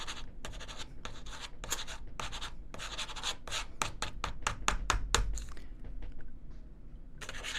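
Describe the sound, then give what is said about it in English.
A pen scratches on paper while someone writes something down by hand, giving many quick, dry strokes and taps in an uneven, brisk rhythm with no talking. “Hold on, let me write that down.”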